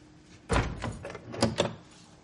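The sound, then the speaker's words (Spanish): A house door is opened at night, with a dull thump followed by a few sharper clicks and rattles of the latch, fairly quiet and with no voices. “Abriendo la puerta, entra en la casa.”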